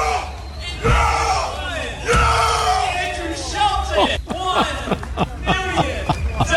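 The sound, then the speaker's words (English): A studio audience cheering effect: a loud crowd of voices whooping, yelling and bellowing together, with drawn-out cries giving way to a run of short, punchy shouts toward the end. “And we're going to use that as the official studio audience now of Connecticut Today”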